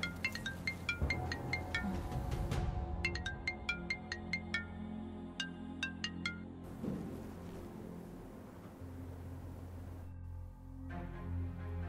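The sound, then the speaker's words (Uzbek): A mobile phone rings with a melodic ringtone, many bright repeated notes in a steady rhythmic pattern over a low background hum. “boyadan beri jing'illaydi telefoningiz.”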